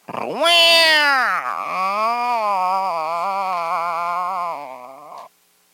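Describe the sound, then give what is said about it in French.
A person's voice imitates a cat's meow in one long, loud, drawn-out cry that swoops up and down in pitch at the start, then holds a sustained, wavering tone for several seconds before cutting off. “J'ai des auditrices qui aiment bien ça lorsque je fais le chat.”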